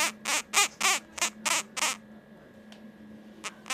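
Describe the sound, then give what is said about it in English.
Very small kākāpō parrot chicks, about 48 hours old and being hand-reared, give a quick run of raspy squawks, then a pause with a few weaker, fainter calls. “And hello to a couple of very small kākāpō chicks.”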